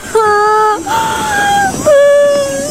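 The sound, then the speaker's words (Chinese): A young girl cries after getting lost from her parents, letting out a few sustained, high wailing sobs whose pitch wavers and dips between breaths. “好了好了，不哭了啊，不哭了。”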